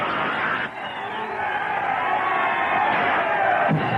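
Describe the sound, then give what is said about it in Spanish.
Crowd roaring and cheering at an ice hockey game after the goalie makes a save: a dense, sustained roar with shouts and whoops mixed in, holding at a steady loudness throughout. “¡Sensacional! Con una patada magistral, el golero salva el día y el público enloquece.”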